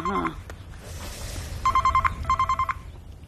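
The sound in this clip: A telephone rings with a trilling electronic tone, heard as two quick pulsing bursts after a brief opening tone, fairly quiet and with no talking.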